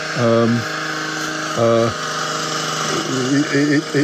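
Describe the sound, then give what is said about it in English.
Chainsaw running during garden work: a buzzing engine whine in short revving bursts. Two brief bursts are followed by a wavering, choppy stretch near the end, all over a steady background drone. “Thought it was the mower to start with, but apparently my dad's got him doing some gardening work, and has made the unfortunate decision to get some sort of chainsaw.”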